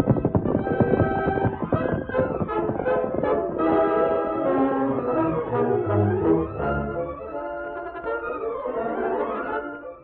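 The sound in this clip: Galloping horses' hooves as riders set off in a western adventure drama: fast, rhythmic pounding with dramatic orchestral music swelling loudly over it.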